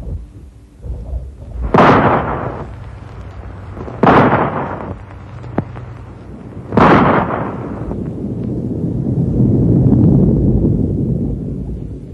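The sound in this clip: Three loud rifle shots, each a sharp blast trailing into a booming, rumbling tail, spaced a few seconds apart, then a low continuous rumble that swells toward the end.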